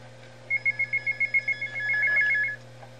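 A telephone ringing: a quick series of short electronic trill pulses, then a longer sustained ring, fairly faint over a low steady hum.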